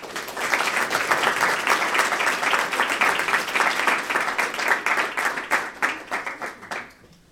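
Audience applause for a poet at a celebration of her new book: a sustained wash of brisk clapping that thins into scattered claps and dies away near the end.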